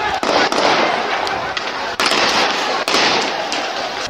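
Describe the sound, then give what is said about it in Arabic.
Live gunfire inside a hospital in Omdurman in January 2019. A few sharp, loud cracks break through a constant, heavy roar of noise at irregular intervals. “رصاص حي رصاص حي تخيل رصاص حي”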